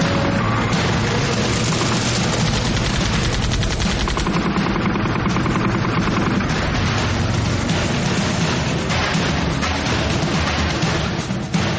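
Sustained gunfire in a battle against armed militants in four-wheel-drive vehicles: loud, dense, machine-gun-like bursts run continuously through the whole stretch with no pauses.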